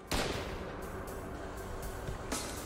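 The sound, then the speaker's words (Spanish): An improvised pipe bomb packed with pressurized gunpowder explodes in a sudden loud blast. A sustained roaring rumble follows, with a second burst surging near the end. “Era una bomba hecha con un tubo. Un dispositivo improvisado muy volátil debido a la pólvora mantenida bajo presión.”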